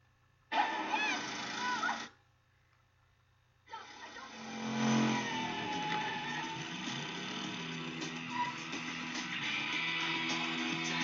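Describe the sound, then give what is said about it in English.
Engine of a police car driving up in a 1992 horror film scene: a short burst of mechanical noise, a brief silent gap, then the engine swells and revs before holding a steady, fairly loud drone to the end. “Here comes Gus in his police mobile.”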